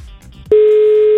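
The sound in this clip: Ringback tone of a phone call that goes unanswered: faint background noise, then a loud, steady single-pitch tone that starts midway and holds to the end.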